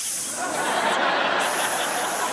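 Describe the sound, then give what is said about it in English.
A voice imitates a disapproving hiss, the kind someone makes at a movie trailer in San Francisco: a steady, breathy, wordless hiss lasting about two seconds, even in loudness throughout. “Because it's San Francisco and you have to hiss something.”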